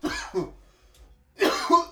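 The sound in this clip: A person coughs in two harsh bursts separated by a short quiet gap, each made of a couple of rough, throaty barks at moderate loudness with no talking.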